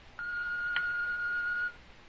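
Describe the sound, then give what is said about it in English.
An answering machine beep: a single steady, high electronic tone lasting about a second and a half, heard alone with no voices. “But please record a message after the tone.”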